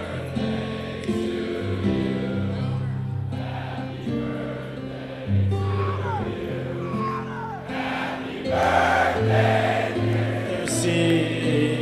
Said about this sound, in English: I think the least we can do is sing happy birthday to Mr. C. So here we go, everyone. Happy birthday.